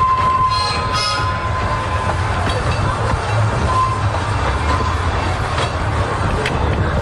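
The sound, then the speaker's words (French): Steady rumble of a regional passenger train running on the small rural Guéret–Felletin line in France. The noise is loud and continuous, with a constant rolling texture and no clear breaks. “Depuis cet enregistrement, la petite ligne, c'est-à-dire la ligne Guéret-Felletin, a vécu son dernier voyage le dimanche 31 août 2025.”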